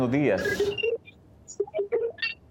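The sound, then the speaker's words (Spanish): A listener's phone call connects on a Spanish-language radio program. A voice talks briefly, then a scattered series of short electronic beeps and blips at differing pitches follows. “Así que por ahí nos está llamando Cecilia, bueno, Cristina también. Atendemos la llamadita.”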